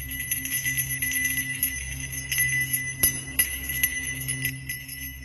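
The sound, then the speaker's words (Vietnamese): A small bell hanging on a fortune-telling flag jingles faintly, giving a few light metallic strikes over thin, sustained high ringing tones. “Quả chuông nhỏ treo trên lá cờ có ghi 4 chữ xem bói âm dương bỗng nhiên kêu lên leng ca leng keng.”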